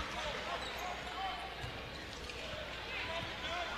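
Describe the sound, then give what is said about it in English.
A basketball is dribbled hard before a free throw. Two dull bounces thud under a steady crowd murmur, and a voice is heard talking. “One hard dribble, spin in the hand, and another hard dribble, and it's good.”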